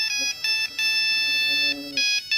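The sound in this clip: A mobile phone ringtone set to a disco pop tune: a bright electronic melody plays in repeating bursts with brief gaps between phrases.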